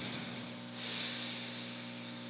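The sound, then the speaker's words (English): A person breathing during a yoga session: a soft, airy exhale that rises into a broad, steady hiss and then slowly tapers, quiet and with no talk. “Breathe in. And breathe all the way out. Breath in.”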